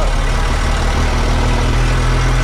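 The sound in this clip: Steady engine drone of a vehicle driving through a neighbourhood past small farmhouses, a continuous low rumble with even loudness throughout and no talking.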